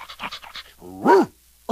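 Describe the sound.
A dog pants in several quick, rhythmic breaths, then gives one louder, drawn-out voiced whine. A brief sharp sound follows near the end.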